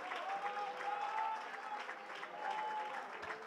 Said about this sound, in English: Clap your hands and give God praise.